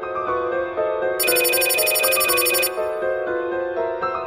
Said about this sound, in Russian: Жень, ну что ты стоишь? Сходи, узнай, кто там названивает». Мать всплеснула руками и подскочила к плите, помешивая содержимое кастрюли. Звонок раздавался все ближе и ближе.